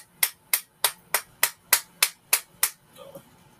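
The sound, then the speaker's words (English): Nine sharp, evenly spaced taps of a small hammer on a herb grinder while making hash, crisp bright clicks at a steady rhythm, then a brief faint pause. “Just making hash, tapping my little baby hammer onto the grinder. That's what that is when you hear it.”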